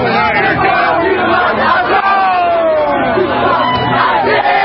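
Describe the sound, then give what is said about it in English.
Loud roar of protesters outside Trump Tower in New York City during the George Floyd protests: massed shouting voices form a constant wall of sound, with one voice rising above the crowd in a long cry that falls in pitch. “This is the sound of protesters outside Trump Tower in New York City last evening.”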